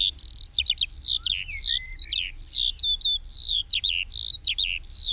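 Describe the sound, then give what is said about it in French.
Eurasian skylark singing in flight: an unbroken stream of rapid, high-pitched warbling trills and chirps that runs steadily and clearly throughout, with no voices. “Et sa cousine, évidemment, l'alouette des champs, qu'on a entendu une ou deux fois en vol. Alors, elle chante en volant à 50 ou 100 mètres au-dessus de vous.”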